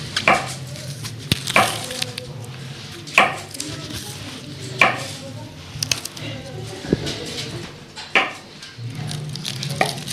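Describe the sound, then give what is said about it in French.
A knife cuts peeled bananas into rounds, giving several crisp knocks against a board at uneven intervals. Steady background noise runs underneath, and voices may be faint in the background. “Alors maintenant, ça va être les bananes à éplucher. Faut les couper en rondelles. Ouais, nous épluchons donc les bananes. En rondelles. Afin de les couper en rondelles.”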